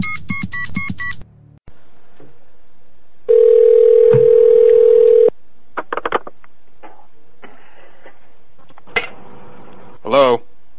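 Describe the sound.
Steady telephone dial tone heard while calling back, a loud pure tone lasting about two seconds, surrounded by short beeps, handset clicks and handling noises.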